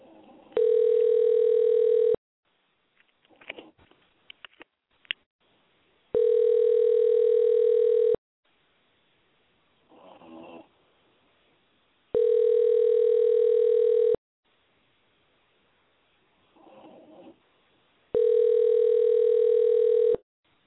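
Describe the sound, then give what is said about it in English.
An outgoing telephone call rings through the line as four steady, identical tones about two seconds long, evenly spaced with roughly four-second gaps. Faint muffled noises fill the pauses between tones. “Let me call him. You got this? All right. All right, let me call this.”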